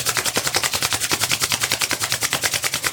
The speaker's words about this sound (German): lade ich dich jetzt mal ein, richtig stark deine Hände zu reiben.